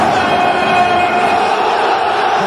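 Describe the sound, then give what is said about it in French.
Stadium crowd at the Vélodrome roaring and cheering on its feet for goalkeeper Steve Mandanda, a dense and loud continuous wall of voices that holds steady without a break. “Ah, il a les yeux qui brillent. Waouh ! Le Vélodrome est debout pour accueillir Steve Mandanda.”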